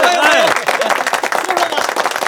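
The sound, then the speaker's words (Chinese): Audience applause welcoming a storyteller, a quick flurry of claps that rises under a voice at the start and continues briefly on its own. “大家鼓掌欢迎！ 欢迎欢迎欢迎！”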